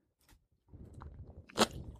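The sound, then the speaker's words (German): A sip taken from an energy drink: quiet, wet slurping and gulping sounds with one sharper, louder slurp near the end, heard alone. “ihr könnt jetzt einfach mal kurz zuhören, wie ich einen Schluck nehme von diesem leckeren Zeug.”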